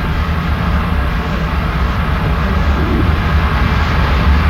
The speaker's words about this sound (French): Allumage. Allumage des étages accélérateurs et décollage. Tous les paramètres de propulsion sont normaux.